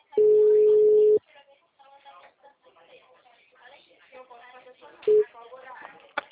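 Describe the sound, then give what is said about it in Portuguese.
A telephone tone sounds after a dropped call. A steady, mid-pitched beep lasts about a second, then a person talks, and a brief second beep cuts in near the end. “a ligação caiu. Isso, caiu.”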